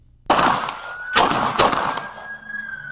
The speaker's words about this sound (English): Now he just did 17 shots.